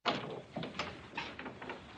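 Knocking on a dormitory door: a few soft, irregular raps at a low level, with light rattling between them. No voices are heard.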